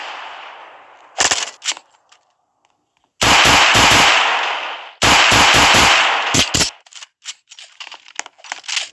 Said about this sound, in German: ich habe sogar eine Pistole.